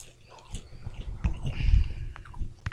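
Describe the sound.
Chewing on a grilled seaweed snack from Thailand: soft, moist crunching bites that build in the middle and stay faint and close, with a few sharper clicks near the end.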